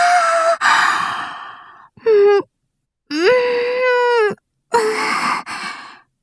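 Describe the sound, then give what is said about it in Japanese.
A person yawning while alone and idle in a confessional: drawn-out, breathy, voiced exhalations in several separate bursts, with sighing tones that slide in pitch. “あまりに暇で、その、懺悔室で一人、思わずあくびを漏らしてしまう私がいた。”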